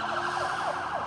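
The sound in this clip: A police car siren wails in Los Angeles, loud and continuous, with quick repeating up-and-down sweeps throughout the short clip.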